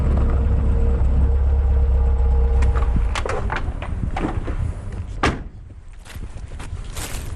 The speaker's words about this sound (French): Donc là, il y a un parking où je vais tous les jours. J'espère que je vais trouver une place.